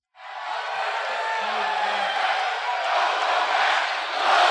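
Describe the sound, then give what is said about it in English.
Wrestling fans chant "welcome back" as a wrestler returns for a WWE promo: a loud, sustained wall of crowd voices that holds steady and swells slightly at the end. “Fans immediately saying, welcome back.”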